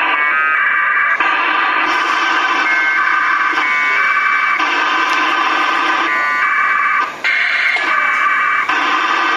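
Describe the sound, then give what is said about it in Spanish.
APRS data packets sent on VHF at 144.800 MHz by a radio set with a GPS and a modem: loud, harsh buzzing tones that switch abruptly between pitches in blocks, continuous, with no voice. “Con la ayuda de un GPS, un módem y un equipo de VHF, el APRS transmite en 144-800 megaciclos esto.”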